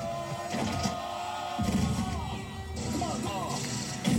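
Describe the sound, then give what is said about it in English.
Heavy crashing impacts as fighters smash through walls in a martial-arts movie fight scene between two wrestlers, a few loud bursts standing out from a dense, continuous soundtrack with voices. “this is when E Honda and Zangief smash through walls.”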